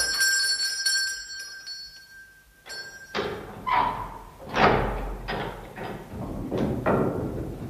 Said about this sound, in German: Links neben dem Portal befand sich ein verrosteter Glockenzug, den ich ohne viel Hoffnung in Bewegung setzte.